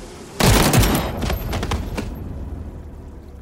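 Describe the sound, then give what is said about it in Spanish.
Firing-squad volley on command: one loud, abrupt blast of many rifles firing together, then a few scattered reports and a crackling rumble that slowly fades. “¡Disparen!”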